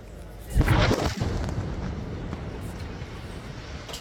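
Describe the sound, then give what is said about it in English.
An Israeli strike destroying a house in Al-Nusirat camp in central Gaza: a single deep, booming blast, then a long rumble that slowly fades. “A separate Israeli strike targeted a house in Al-Nusirat camp in central Gaza. This video shows the moment the home was destroyed, followed by thick dust spreading across the city's market.”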